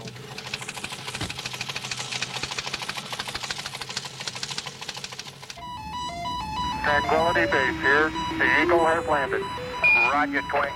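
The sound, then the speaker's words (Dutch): Telex transmission tones, a signal that prints as readable text on a telex machine. It follows a stretch of talking and comes in as a steady warble of electronic tones that switch rapidly between fixed pitches. “Het enige wat ik nu nog hoef te doen is de telex aan te zetten en het signaal wat u zo hoort, waar niets van te maken is, dat geeft normaal leesbaar schrift op een telexmachine.”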